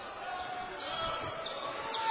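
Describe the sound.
A basketball is dribbled during a high school game between Rockford and Zealand West, with steady bounces under continuous crowd noise and voices.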